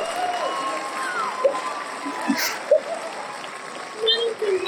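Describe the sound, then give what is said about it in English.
Applause and cheering from an audience giving a standing ovation, a steady wash of clapping with scattered shouts rising above it. “5 minutes standing ovation. I don't know what I did to deserve this,”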